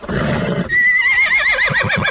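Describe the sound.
A horse whinnies while being saddled and bridled, with the saddle cinched tight and a bit being fitted. After a brief rustle comes one long, loud, shaky whinny with a wavering pitch.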